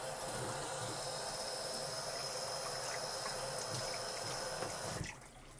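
Hot water pouring for ramen soup broth, a steady, quiet rushing flow that stays even for several seconds and then cuts off near the end.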